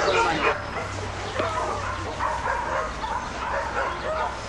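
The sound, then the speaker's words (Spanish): A dogo with a fierce temper barking and yipping in short, repeated bursts mixed with whimpers, over a busy background with voices. “Parece que se trata de un perro con carácter, ¿eh?”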